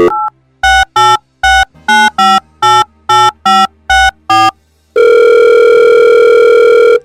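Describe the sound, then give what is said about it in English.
A telephone number being dialed: a brief tone, then ten quick keypad beeps of varying pitch in an uneven rhythm, followed by a loud, steady tone held for about two seconds. “So let me dial her number. Hold on.”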